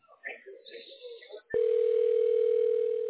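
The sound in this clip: A telephone dial tone cuts in abruptly after brief talk, a single steady, unbroken hum holding evenly and loudly for nearly two seconds.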